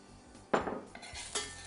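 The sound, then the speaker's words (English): Onions hitting hot oil in a pan make a few brief, quiet clattering bursts against a soft background, with no voices. “So my oil is nice and hot. In go the onions.”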